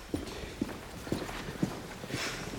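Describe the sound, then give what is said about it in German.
Footsteps marching through a long, large hall lined with several workstations: five firm, evenly spaced steps in a steady walking rhythm, with no talking. “Ludger marschiert mit Ariane durch den großen Vorraum. Er ist langgestreckt mit mehreren Arbeitsplätzen.”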